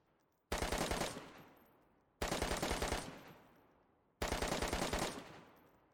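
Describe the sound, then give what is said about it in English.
Automatic gunfire in a video game: three separate bursts of rapid rounds, each starting with a sharp attack and trailing off in a long decaying roar, with short pauses between them. “Looks like about another good meter in recoil from that 7 or 8 round burst then.”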